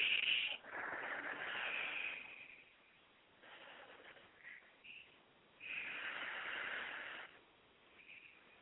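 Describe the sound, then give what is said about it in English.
Slow, deep breaths taken together, heard as two long airy hissing swells with softer breathy sounds between them, all quiet. “Let's take a deep breath right here, right now”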